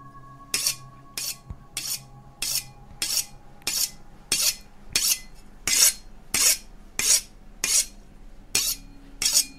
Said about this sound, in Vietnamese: Phi nghe được trong phòng là những âm thanh xoèn xoẹt như là có ai đang mài dao vang lên